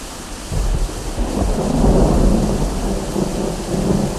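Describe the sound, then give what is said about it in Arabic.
Heavy rain pours steadily while thunder rolls in a deep, continuous rumble, loud and unbroken throughout with no voices. “هذا المطر هذا المطر فوق أراضينا ينهمر.”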